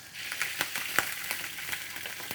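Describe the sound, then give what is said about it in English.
Whiskey sizzles as it hits a hot skillet, a faint, steady hiss broken by many sharp crackles and pops, with no talking. “You can hear the sizzle as soon as it hits the skillet.”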